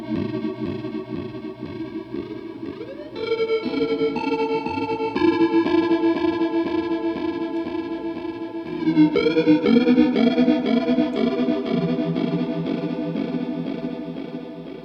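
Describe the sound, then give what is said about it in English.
Electric guitar fed through a Rainbow Machine synth pedal, turning sustained notes into a shimmering, warbling synth-like tone with a chorused wobble, moving through several held notes and changes at a steady level without any voices. “you can make your guitar sound like not a guitar by using a synth pedal, or right? Even the Rainbow Machine by itself.”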